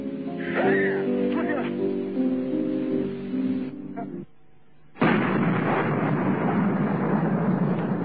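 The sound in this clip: Gunfire in battle comes over a narrow-band radio link. A voice talks first, and after a short silent gap a dense, continuous burst of shooting fills the remaining seconds.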